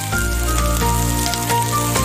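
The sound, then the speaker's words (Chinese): Loud, continuous sizzling as multigrain rice is stir-fried in a wok over high heat with sea urchin pieces and aged preserved radish, a dense, unbroken hiss and crackle throughout. “杂粮饭入锅，大火快炒，颗颗松散干爽，裹满配料醇香，还带几分焦香提味。”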